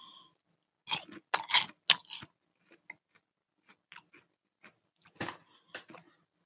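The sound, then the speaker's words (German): Crunching and chewing of truffle-flavoured popcorn: a quick run of loud, dry crunches, then softer, scattered chewing clicks and a final brief crunchy flurry, with no talking. “Jetzt habe ich so einen Popcorn. Ich probiere mal eins.”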